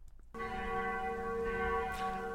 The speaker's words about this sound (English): that's the sound of the mission bell